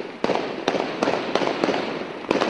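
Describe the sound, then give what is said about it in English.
Gunshots ring out on the streets of Tunis during violent protests in which police fire live rounds: several sharp, loud cracks at irregular intervals over a continuous noisy background. “that was the sound of gunfire on the streets of Tunis over the past few days.”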